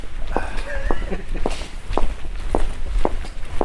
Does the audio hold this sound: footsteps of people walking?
yes